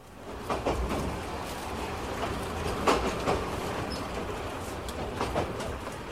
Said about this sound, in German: Drei Stunden dauert die Rundfahrt mit der Circle Line, die einmal rund um Yangon führt. Der Zug fährt 38 kleine Stationen an